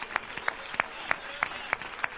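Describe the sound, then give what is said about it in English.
A church audience claps in a steady, even rhythm, with quick, soft claps landing about three times per second against a low murmur. “Clap unto the Lord. Hallelujah!”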